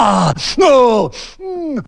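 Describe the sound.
A voice imitates people taking exaggerated deep breaths outside. Three loud, voiced, groaning exhales with falling pitch alternate with short breathy intakes, all in quick succession.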